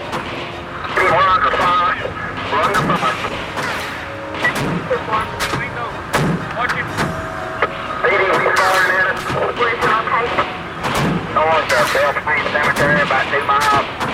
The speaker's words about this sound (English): The outlaw shoots first, and the officers return fire.